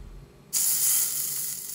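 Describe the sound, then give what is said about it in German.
Skewered beef roulades sear in a hot pot, a loud, steady hiss that bursts in abruptly after a short quiet start and keeps sizzling evenly to the end. “Mit Spieß versehen bräunt Bastian die Rouladen im heißen Topf fresh an, damit sich rundum Röstaromen bilden.”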